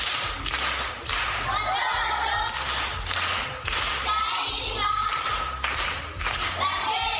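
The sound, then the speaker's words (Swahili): A primary school audience applauds an uncle with many hands clapping in a steady, dense patter. The clapping rises and dips in a few waves over about seven seconds. “Makofi kwa anko.”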